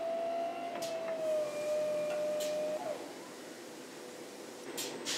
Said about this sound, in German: Auch das passiert natürlich alles vollautomatisch. Da muss kein Mensch mehr Hand anlegen. Das Becken wird eingespannt und gedreht.